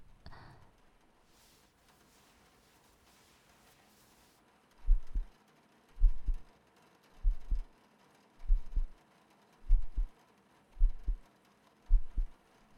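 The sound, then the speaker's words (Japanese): A heartbeat: after several seconds of faint hiss, seven low, muffled thumps arrive at a slow, even pace, roughly one per second. “心音を聞くと心が落ち着くと書いてあったので実践してみた。”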